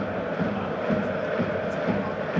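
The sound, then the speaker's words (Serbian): Football stadium crowd atmosphere, with Red Star Belgrade fans filling a nearly full north stand: a dense, steady roar of many voices holds throughout without a clear break. “Čujete kakva je atmosfera na tribinama, sever gotovo popunjen.”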